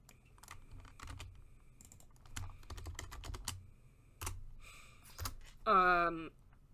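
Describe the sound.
Rapid typing on a computer keyboard, with many clicks and key taps in an uneven rhythm and a brief breathy vocal sound near the end.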